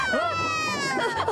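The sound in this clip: An infant crying on a boat at sea: a brief, high-pitched, wavering wail with strong harmonics that rises and dips in pitch, heard continuously for a moment.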